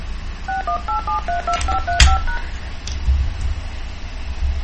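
Telephone keypad tones enter a meeting ID for a dial-in video meeting. A rapid series of short beeps at shifting pitches plays over a low background hum, followed by a sharp click.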